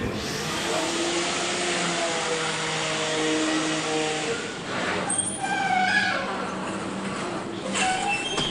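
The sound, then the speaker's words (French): A large professional-grade electric blender running: a continuous, loud motor whine and whirring roar that holds steady for several seconds, with its tone shifting slightly partway through. “je vous laisse mixer.”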